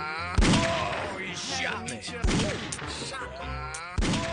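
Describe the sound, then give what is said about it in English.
Three sharp gunshots from an arcade-style shooting video game ring out about two seconds apart, with people talking between them. “He shot me.”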